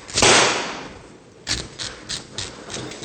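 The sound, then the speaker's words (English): A chef's blade shaving the top off a coconut: one longer rasping scrape, then a run of shorter, evenly spaced scraping strokes, each a brief dry burst, with no talking. “We're going to actually start by shaving the top off with a chef's blade.”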